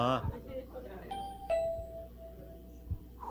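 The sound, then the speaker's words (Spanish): A doorbell rings at a varnished mahogany door during a live comedy show, giving a clear sustained chime tone with harmonics after a brief voice at the start, followed by quieter background sounds. “Y ahí está el timbre, mira. ¿A poco ni lo habían visto?”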